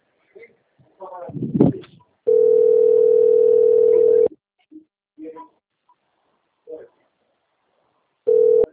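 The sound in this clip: A steady telephone line tone while a call is being placed: a loud, unbroken mid-pitched hum lasting about two seconds that starts again at the very end. Short bits of speech come before and between the tones.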